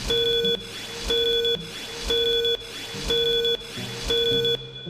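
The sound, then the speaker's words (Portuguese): Five short, steady electronic beeps, each about half a second long and spaced one second apart, form an even countdown tone at a constant mid pitch, heard alone without talk. “Atenção, senhoras e senhores, para o toque de 5 segundos.”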